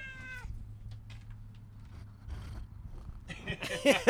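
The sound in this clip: Low, steady purring from a cat runs throughout, faint and continuous after a brief meow-like cry at the start, while voices and louder clatter come in near the end.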